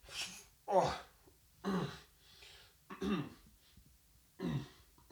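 Throat clearing in a studio: four loud, raspy bursts at fairly even spacing after a fainter rasp at the start, with no talking.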